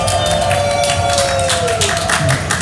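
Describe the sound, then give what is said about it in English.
A festival crowd applauds and cheers at the main stage of an outdoor trance music festival in Utrecht, producing dense clapping and crowd noise at steady, loud volume throughout. “Can I have a round of applause”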